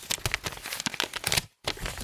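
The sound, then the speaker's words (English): A paper envelope is torn open and crinkled in a steady run of crisp rips and crackles, close and fairly quiet. There is one brief silent gap before the tearing resumes. “Let's go ahead and open up our envelope so we know which categories we have. There's some SMR for you guys.”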